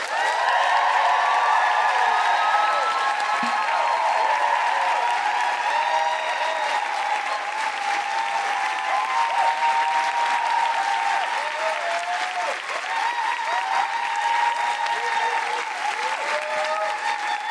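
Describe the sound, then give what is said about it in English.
Loud, sustained applause from a live comedy show audience welcoming a guest to the stage, mixed with enthusiastic whooping and cheering voices that hold steady throughout. “Please make an enormous Guilty Feminist woohooing noise and welcome to the stage the wonderful Sherin Khankan.”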